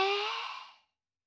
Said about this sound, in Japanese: また深呼吸しましょうか。ほら、吸って